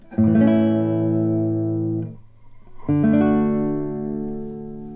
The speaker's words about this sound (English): Major chords sound quite happy and upbeat, like this.